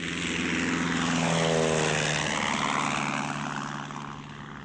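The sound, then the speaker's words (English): A Lysander propeller aircraft descends to land, its engine a steady, loud, rough drone with a throbbing hum that swells slightly, then eases and fades somewhat toward the end. “The Lysander's wing almost touched the face of the cliff as they descended towards a patch of green.”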